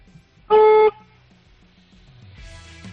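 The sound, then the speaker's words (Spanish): A 2019 car's horn gives a single short honk. The loud, steady, buzzing blare lasts under half a second, then quiet background hum follows. “Así que vamos a escuchar cómo suena el claxon. Mira, dale un toque de 2 segunditos, a ver cómo suena.”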